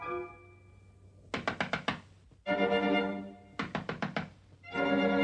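Knocking on a door, a princess rapping at a dusty cottage in a fairy-tale woodland setting: two quick bursts of about five sharp knocks each, separated by duller, fuller sounds.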